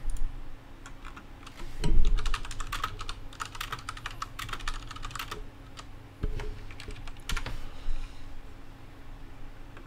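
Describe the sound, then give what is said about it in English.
Computer keyboard keys clatter as someone types a web search, with many quick, uneven clicks running for about ten seconds and a louder thump near the start. “No, I'll go back to Google and type in Box Office Mojo 2019 worldwide if you can.”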